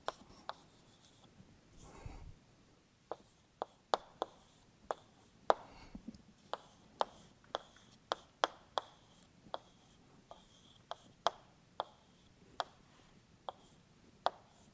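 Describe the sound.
Equations are written out by hand during a physics lecture on ground states: many sharp taps and brief scratchy strokes in an uneven rhythm over faint background hiss.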